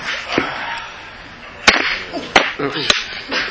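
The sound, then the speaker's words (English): Heavy gavel striking to call a city Public Works, Parks, Labor, and Transportation Committee meeting to order: three sharp, loud cracks spaced about half a second apart over a low background murmur. “That was a heavy gavel.”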